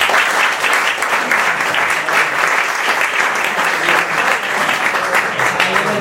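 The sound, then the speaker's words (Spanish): Dense, steady audience applause welcoming a painter at a live copla event, loud and sustained for about six seconds without a break. “Un aplauso para él, ¿no?”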